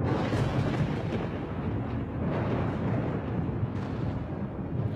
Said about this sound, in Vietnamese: Chú lệnh ầm ầm từ trên tầng không, liên tục là 5 tia sét màu tím đánh thẳng xuống huyết nhi quỷ.